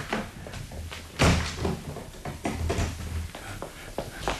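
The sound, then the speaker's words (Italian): A door being shut and locked: one loud heavy thump stands out among several lighter clicks and knocks from the latch and key, spread over a few seconds. “Chiudete e levate la chiave.”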